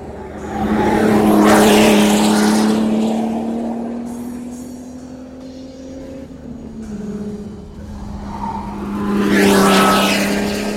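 Formula One race car exiting a corner under load, its engine a loud, high, continuous scream. The pitch climbs steadily, dips briefly, then climbs again as the engine roars on.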